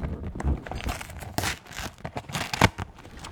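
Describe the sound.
A packet of Frosties cereal being opened: continuous crinkling and rustling of packaging with several tearing bursts and a sharp, louder rip near the end.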